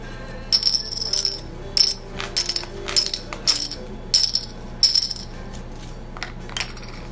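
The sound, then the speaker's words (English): Poker chips being counted out during a home card game: many light, bright clacks and rattles come in short bursts, some louder than others, with little talk. “Alright, now take out this many chips. And we'll go from here. 4 green, 4 blue, and 8 white.”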